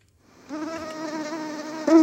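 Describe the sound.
A mosquito's thin, steady buzzing whine fades in after a moment of quiet and holds an even, high pitch. It swells louder in the final moments.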